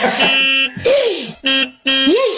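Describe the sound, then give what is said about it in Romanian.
A car horn honking in four loud, separate bursts. Some bursts carry a tone that bends up and down in pitch, with sharp gaps between them and no talk. “Ei sunt, claxonează.”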